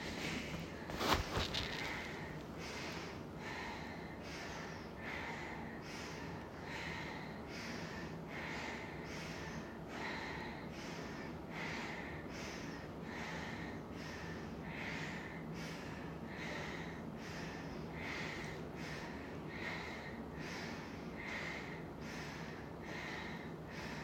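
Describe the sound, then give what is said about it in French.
Forceful nasal exhalations during an alternate-nostril breathing exercise: many sharp, snort-like puffs of air repeat at a steady, quick rhythm of about one per second over a constant breathy hiss. “Expire à gauche. Inspire au centre. Expire à droite. Inspire au centre.”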